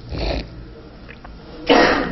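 A single loud, breathy sneeze bursts out near the end, after a quieter breathy sound at the start and low background noise.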